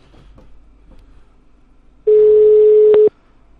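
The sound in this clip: Telephone line tone heard while dialing a call by mouse clicks: a quiet, faintly rustling background gives way to one loud, steady tone lasting about a second, with a sharp click near its end.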